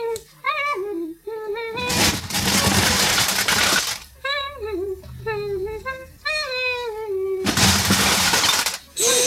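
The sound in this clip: Crockery plates shatter in two long crashing bursts in a comic German horror radio play, each a bright, noisy cascade of breaking ceramic lasting about two seconds. High, wavering vocal sounds come before and between the crashes.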